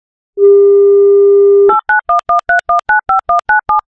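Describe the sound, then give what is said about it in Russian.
A telephone call being placed: a steady, loud dial tone holds for over a second, then gives way to a rapid, evenly spaced series of short two-tone keypad beeps as the number is dialed. “Вот сейчас давайте-ка ему и позвоним, и все у него разузнаем.”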